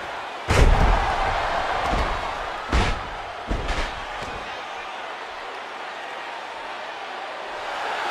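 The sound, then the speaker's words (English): A wrestling power slam slams a body hard onto the ring mat as one heavy thud, then a few lighter impacts follow over steady background noise. “Oh, the huge power slam by Hacksaw.”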